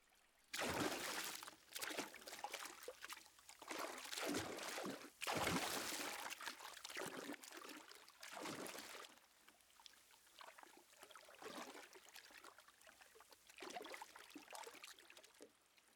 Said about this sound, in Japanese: お湯何度かぶっかけるね。